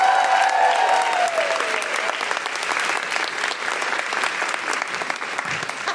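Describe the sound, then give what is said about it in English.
A stand-up comedy audience bursts into lively applause as comedian Zoe Lyons is welcomed to the stage. A voice or cheer rises briefly over the opening moments, then dense, steady clapping carries on to the end. “And please welcome to the stage the wonderful Zoe Lyons!”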